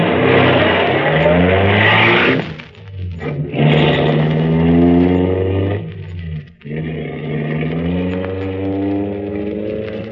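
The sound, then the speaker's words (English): Car engine revving as a car pulls away and starts driving: a loud, steady drone with shifting pitch, briefly dipping twice before surging on. “Save the apology. Let's start driving.”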